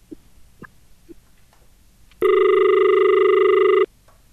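A telephone disconnect tone sounds once after a call is cut off: a loud, buzzy, harmonic-rich steady tone of about one and a half seconds, preceded by a few faint clicks, then it stops abruptly.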